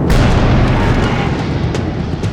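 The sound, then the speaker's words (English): A magic crystal unleashes a fireball explosion: one massive roaring boom that stays loud and dense for the whole stretch, a deep rumbling blast with no pause. “What is that ball of fire? The crystal worked!”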